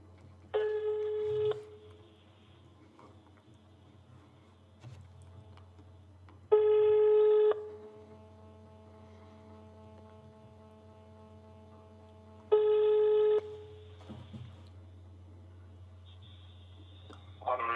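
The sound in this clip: Telephone ringback tones sound while an outgoing call waits to connect: three long, steady buzzing rings evenly spaced by quiet gaps, with a low hum and faint background sound in between.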